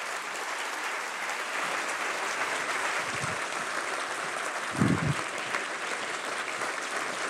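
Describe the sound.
Warm applause from a lecture audience welcoming a professor to give a talk on decision-making, a soft, steady wash of many claps with a couple of low thumps in the middle and no talk.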